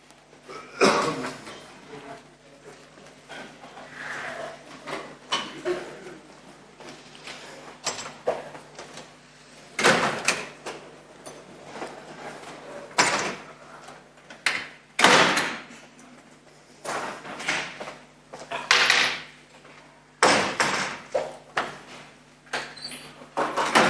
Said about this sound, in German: Ich würde noch schnell die Fenster zumachen, damit da keine Lautstärke kommt, während der Vortrag läuft.